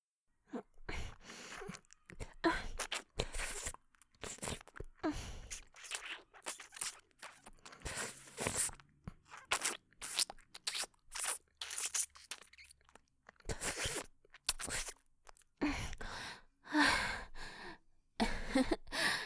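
Crunching as a piece of chocolate candy is bitten and chewed: many crisp, sharp bursts in an uneven rhythm, with short quiet gaps and no talking.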